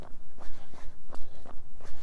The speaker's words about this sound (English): let's get going. This is going to be my 4th run this week.